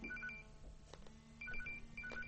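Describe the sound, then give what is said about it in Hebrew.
A phone ringtone left switched on plays faint, high warbling electronic tones in short repeated bursts, with pauses between the bursts. “שכחתי, אוי, שכחתי לסגור את הטלפון.”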